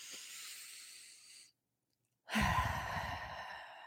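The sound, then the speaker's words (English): Deep breathing by a person: a long, soft, airy breath, a moment of silence, then a louder, fuller rush of breath that trails off gently. “let's just take a deep breath now together. You can breathe in.”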